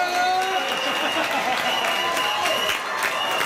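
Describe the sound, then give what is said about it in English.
Portugal football fans cheer and clap to celebrate their team's World Cup comeback. Voices and clapping form a dense, continuous din that stays loud throughout. “Portugal fans were celebrating a big comeback yesterday afternoon.”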